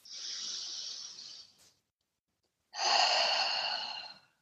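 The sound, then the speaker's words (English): Two long breaths during a guided breathing exercise, in through the nose and out through the mouth: a soft, narrow airy hiss, then a pause of silence, then a fuller, breathier rush of air that fades out. “Come back into normal breath, in through the nose, out through the mouth, whatever feels good for you right now.”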